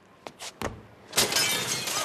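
Window glass shatters when an old leather ball kicked at it breaks through. A few faint knocks come first, then a loud crash with bright tinkling fragments that ring on briefly.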